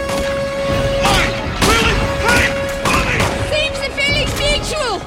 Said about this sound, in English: Rick throws a grenade. As he and Evelyn retreat, they pick off more terracotta soldiers.